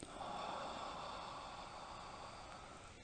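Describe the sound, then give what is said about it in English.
A deep breath drawn in during a guided breathing exercise, heard as a soft, steady airy hiss that lasts about three seconds, faint and alone. “Let's go ahead and take a deep breath in.”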